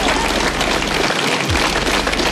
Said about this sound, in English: there was massive applause given to the outgoing PM by a packed Downing Street full of advisers and friends